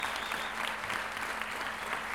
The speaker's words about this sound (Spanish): Un gran aplauso para todos mis hermanos, mis compañeros de trabajo y de labor.